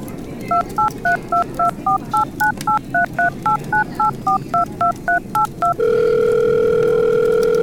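A telephone number punched in on a touch-tone keypad, with many evenly spaced short beeps in a steady rhythm, followed by a continuous flat line tone that runs to the end.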